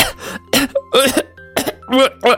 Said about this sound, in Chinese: 他现在难受的直咳，鱼刺还卡在喉咙里呢，咳了半天也不管用。